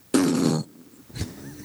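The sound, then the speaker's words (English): Vocal fry demonstrated with the true vocal folds: a low, creaky, rattling vocal burst held for about half a second, followed after a pause by a shorter, quieter creak. “that's what fry is. So I go, yeah, that's fry. This is also fry.”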